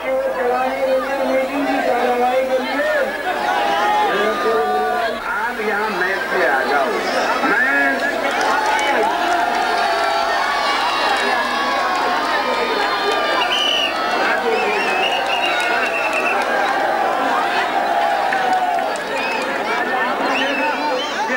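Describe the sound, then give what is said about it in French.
A large crowd cheers and shouts as Phoolan Devi steps off a train at a rally in India, a dense, continuous roar of many excited voices with chatter and shouts throughout. “vous avez filmé l'accueil triomphal des foules qui scandent son nom, Poulan Devi, quand elle sort du train”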